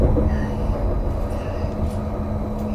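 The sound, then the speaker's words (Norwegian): A train runs toward Lillehammer, its terminal station, giving a steady, dense rumble with a faint thin whine held over it and no voices. “Neste stasjon er Lillehammer. Dette er togets endestasjon.”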